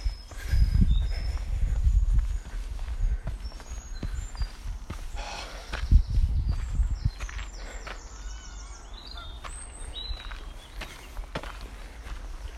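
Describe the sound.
Footsteps of someone walking through woodland on a path with steps, a loose uneven shuffle of treads that is louder in the opening seconds and again around the middle, with thin bird calls chirping above.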